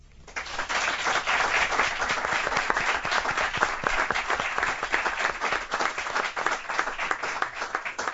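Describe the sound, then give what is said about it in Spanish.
Applause from a studio audience in a radio studio in San Sebastián de los Reyes, a dense, steady wash of many hands clapping that holds evenly for about eight seconds. “Os van a saludar a todos con este aplauso.”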